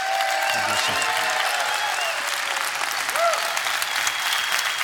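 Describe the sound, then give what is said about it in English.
An audience applauds to welcome a guest speaker, dense and even clapping that holds steady from start to end with no break. “put your hands together, everybody. Let him know he's welcome.”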